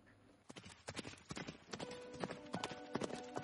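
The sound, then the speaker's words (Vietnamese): Horse hooves clip-clop on a road as riders set off on horseback, many quick, irregular hoofbeats at a soft to moderate level, alone without talk. “Đợi ngựa đến nơi rồi, hai người lên lưng ngựa, trở lại đường quan.”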